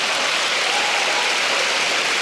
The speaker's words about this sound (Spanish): Denle un aplauso al Señor por eso.